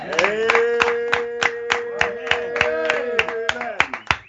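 An audience claps to welcome a preacher, the claps falling in a steady rhythm over sustained musical tones and growing quicker near the end.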